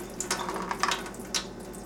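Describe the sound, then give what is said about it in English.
Juice from a can of clams being drained into a sink: a faint, steady watery trickle with a few brief louder splashing gushes, heard alone without talk. “with the second can, you're actually going to want to drain out the juice. I recommend doing this into a sink.”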